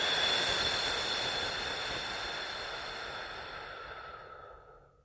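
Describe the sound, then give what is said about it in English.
A forceful exhale blown out as if extinguishing birthday candles: a steady, airy rush of breath that holds for about four and a half seconds before trailing off. “Take a deep breath in. Now blow out, like you're blowing out the candles.”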